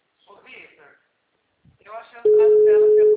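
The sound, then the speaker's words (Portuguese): A telephone busy signal sounds as one loud, steady tone that cuts in after a voice speaks briefly on the line and holds to the end. “O número chamado está ocupado. Tente novamente mais tarde.”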